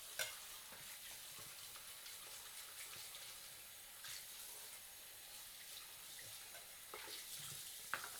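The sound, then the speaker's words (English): A bowl being rinsed clean at a sink, a faint, steady hiss of running water with occasional soft knocks and scrapes, no talking. “Cleaning off the damn bowl now.”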